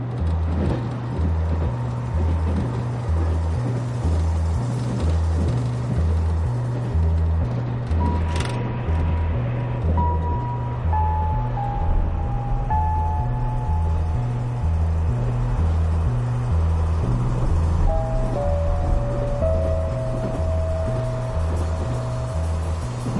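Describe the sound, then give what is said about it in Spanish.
A train runs through open fields with a loud, continuous low rumble and a steady rhythmic pulsing clatter that lasts throughout, with a faint thin tonal whine appearing over it. “Un tren circula entre campos.”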